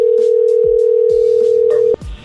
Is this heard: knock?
no